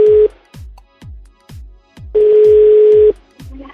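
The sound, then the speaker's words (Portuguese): A telephone call being placed, with two bursts of steady ringing tone, one short and one long, over a regular rhythmic beat of soft thumps. “vamos ligar pra ela”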